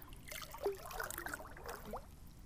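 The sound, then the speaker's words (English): Water trickles and sloshes as someone swims one-handed, soft irregular splashes and dribbles that stay faint and steady throughout. “I'm attempting to swim one-handed so that I can record.”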